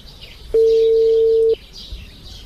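A single steady telephone tone of about one second sounds during a mobile phone call, with birds chirping faintly throughout.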